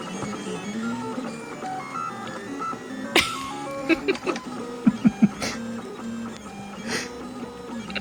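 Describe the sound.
A printer runs as it prints circles for a round part such as a gear, its motors giving off humming, musical tones that waver up and down in pitch, broken midway by a few sharp clicks.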